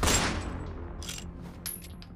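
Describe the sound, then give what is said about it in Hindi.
A gunshot fired by a police inspector at the legs of a fleeing man in a dramatized rescue: one loud sharp blast at the start that decays slowly, then a few fainter sharp bursts. “Vikrant Sinha ने मौका देख उस शख्स के पैरों पर shoot किया”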